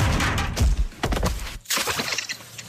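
A heavy crashing impact marks a man's head striking the ground after a ten-metre fall from scaffolding: loud, dense clattering thuds, a brief break near the middle, then more rough crashing noise.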